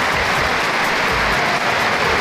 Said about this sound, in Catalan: Aquest era l'aplaudiment al minut 12 del partit entre la Zeta i el Telstar